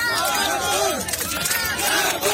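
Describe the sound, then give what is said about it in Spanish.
A crowd cheers and shouts for a Japanese athlete at a sporting event, many overlapping voices forming a loud, sustained roar with raised calls rising out of it. “Aplaudiéndolo al japonés.”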